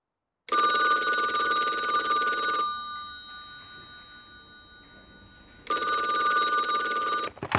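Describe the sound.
A telephone rings in two long, bright, trilling electronic bursts separated by a pause of a few seconds, loud and clear with no talk over it.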